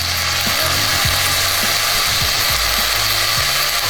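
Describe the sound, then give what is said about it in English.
Sizzling bacon in a pan gives a steady, dense crackling hiss. Irregular low pops and spits run through it, with no voices. “This is supposedly one of the most satisfying food sounds. It's the sound of sizzling bacon.”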